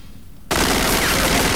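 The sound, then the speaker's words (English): Gunfire erupts suddenly after a short quiet moment, its bullets knocking tins off a shelf in a damp chamber. The shots become a loud, dense, continuous roar of rapid fire. “Her bullets dislodge tins from a shelf”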